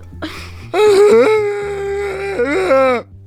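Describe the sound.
A human voice imitates crying, producing a high, wavering whimper that is drawn out and wobbly, broken by a few sobbing catches, loud and alone without other talk.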